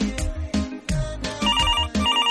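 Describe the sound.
An incoming call rings on a radio call-in show, the telephone's electronic ringtone repeating in quick, even pulses of bright warbling tones.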